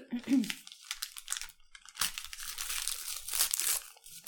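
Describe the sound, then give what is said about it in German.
Paper wrapping crinkling and tearing as a corner of a wrapped book package is opened, bursts of crackly rustling alongside a person talking. “Ich pack mal ein Eckchen aus.”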